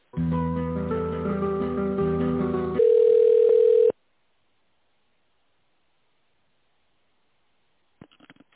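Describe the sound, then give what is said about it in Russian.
A telephone line tone sounds while a call is being transferred: a few seconds of tonal, music-like line sound, then a steady flat tone for about a second, followed by silence and a few faint clicks near the end. “Давайте я вас переключу на специалиста, который этим занимается.”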